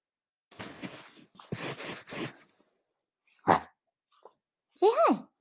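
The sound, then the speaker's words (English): A dog lets out a short bark, then a higher, wavering yelp or whine, following a stretch of a person talking. “That was my dog, Macy. Macy, say hi. Say hi.”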